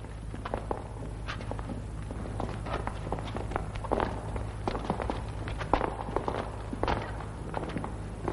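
Footsteps of several people, with an escort, walking into a castle: a long run of soft, irregular steps over a steady low hum, with no voices.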